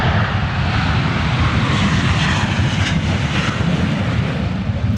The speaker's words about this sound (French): Ça, c'est le bruit d'un FA-18 à l'aéroport de Payerne.